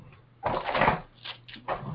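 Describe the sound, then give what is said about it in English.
A drawer slides open so a ruler can be taken out: a sustained wooden scraping glide comes first, followed by a few shorter scrapes and rattles, moderately loud. “That noise is the drawer sliding to get my ruler out.”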